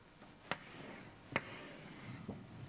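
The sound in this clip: A graph being drawn on a board during a physics lecture: three sharp taps, each followed by faint scratchy strokes. The sound is quiet and there is no talk.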